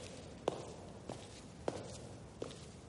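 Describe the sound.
Footsteps of a person climbing the stairs of an apartment-block stairwell: four soft, evenly spaced steps, faint and steady, with no talk.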